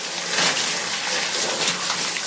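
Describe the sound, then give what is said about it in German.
Water runs while someone washes their hair in a small rented holiday house. It is a continuous rushing spray at a steady, moderate level throughout, with no talk over it. “Moment, gerade Kopf waschen.”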